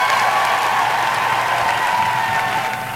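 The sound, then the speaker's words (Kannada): Audience applause for correct quiz answers: dense, steady clapping that holds at an even level throughout and eases slightly toward the end. “ಯಾರ್ಯಾರು ಸರಿಯಾದ ಉತ್ತರವನ್ನು ಕಳಿಸ್ಕೊಟ್ಟಿದ್ದೀರಿ ಅವರಿಗೆಲ್ಲ ಪ್ರೀತಿಯ ಚಪ್ಪಾಳೆ.”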